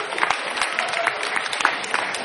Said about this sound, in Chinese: 掌声不热烈，他不起来。